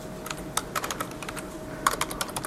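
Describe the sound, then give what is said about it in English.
Computer keyboard typing as code is entered in a terminal: many quick, light key clicks in an uneven rhythm, with a short pause midway, heard alone. “And simply type here print”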